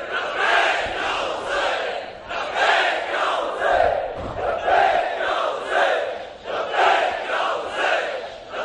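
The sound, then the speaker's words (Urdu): A large crowd chants the slogan Labbaik ya Hussain in unison, loud rhythmic bursts of massed voices rising and falling in a steady repeated pattern. “ایسا نعرہ لگاؤ تو پتہ چلے ہلیں یہ ایجنسیوں کے لوگ، ہلیں ذرا، لبیک یا حسین”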